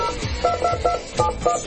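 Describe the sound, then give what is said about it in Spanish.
Touch tones sound as a telephone number is dialed, a quick run of short, evenly spaced beeps over a faint background. “Tiene un pedacito capicúa el número al cual estoy llamando, ¿vos sabés?”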